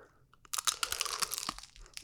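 A loud crunchy bite into a hard, vanilla-flavoured treat with a hard, crunchy outer layer. After a quiet start comes a dense run of sharp, crackling chewing crunches that lasts to the end.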